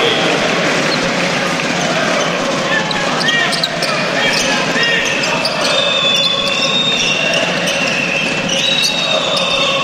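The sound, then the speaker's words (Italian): A basketball is dribbled during a game, its steady run of repeated thuds bouncing at an even pace under continuous talk from a commentator. “Qui lo Stato la recupera e con un numero tiene il palleggio per evitare l'infrazione di passi.”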